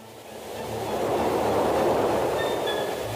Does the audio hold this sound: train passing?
yes